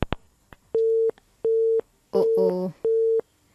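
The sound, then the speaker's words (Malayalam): Telephone busy tone after a call disconnects: four evenly spaced, steady mid-pitched beeps with short silences between them. A brief burst of voice overlaps the third beep. “Okay, അപ്പോൾ നമ്മുടെ call ചെറുതായിട്ടൊന്ന് disconnect ആയിട്ടുണ്ട്.”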